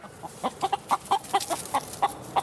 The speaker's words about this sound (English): A feisty chicken is the first to greet me on this luscious hilltop in Umbria.